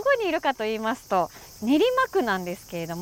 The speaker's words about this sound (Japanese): さあ皆さん、聞こえますか、このセミの声。